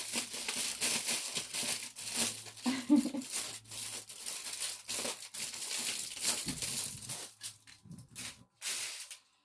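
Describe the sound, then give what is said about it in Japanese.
Aluminium foil being crumpled by hand, a dense run of crisp crinkling and crackling that carries on almost without a break, with a few short gaps toward the end. “ちっちゃいから、たくさんちょっと贅沢にアルミホイルを使わせてもらいます。”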